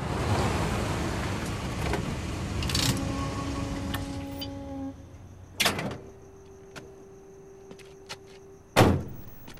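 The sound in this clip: A truck pulls up outside a house at dusk. Its engine noise and a faint whine fade over the first few seconds, followed by two sharp thuds like a door shutting, separated by a quiet gap.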